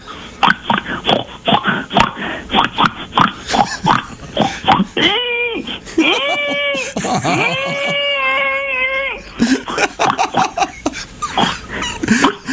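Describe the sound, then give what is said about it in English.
A person imitates a farm pig with many short snorting grunts, then long wavering high-pitched squeals, then more rapid grunts, all loud and vocal. “I feel like the pig sounds in danger.”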